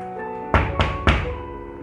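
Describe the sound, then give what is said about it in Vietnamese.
Three evenly spaced knocks on a door, fairly firm and hollow, sounding over a soft, steady music bed with no talking. “Thế Long đã dũng cảm để mà tiến lên gõ cửa.”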